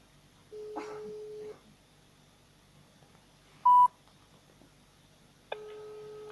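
Telephone call tones as a number is dialed: a long steady low tone, a short high beep after a pause, then another steady multi-pitched tone starting near the end, each clean and electronic over faint background.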